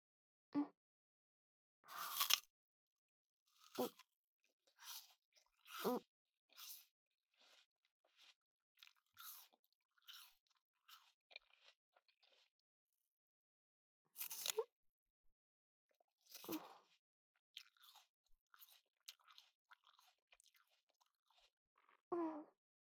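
Wet, crisp crunching and chewing of juicy fruit in irregular bursts of bites separated by silences. The louder crunches give way to many softer, squishy smacks.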